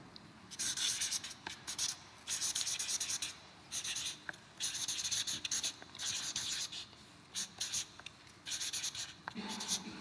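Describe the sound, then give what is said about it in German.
Writing on a board: a faint, steady series of scratchy strokes comes in short bursts with brief pauses, many strokes in a row and no talking. “Schreibe ich mal hier drüber, ist auch gut, dass es oben steht.”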